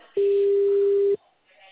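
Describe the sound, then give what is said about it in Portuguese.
A telephone tone sounds on a call to Consignet that goes unanswered: one steady, clean, mid-pitched tone holds for about a second and cuts off abruptly, leaving near silence. “O Consignet não atende. Deve estar abarrotado de gente ligando lá.”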